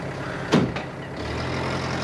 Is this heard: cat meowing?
no

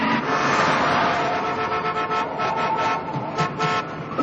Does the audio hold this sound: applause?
no

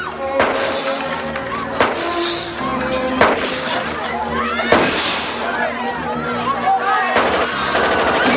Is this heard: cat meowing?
no

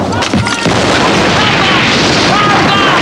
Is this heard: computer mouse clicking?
no

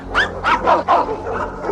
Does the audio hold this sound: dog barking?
yes

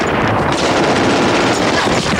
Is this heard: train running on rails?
no

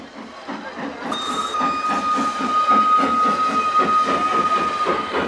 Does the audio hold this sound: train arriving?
yes

